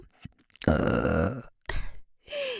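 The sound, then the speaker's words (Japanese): Deep, croaky burps voiced for binaural playback into both ears: one long, loud, drawn-out belch, then two shorter ones, with a few small throaty sounds before them. “ほらほら、お兄さんの大好きなおかず用ゲップだよ。”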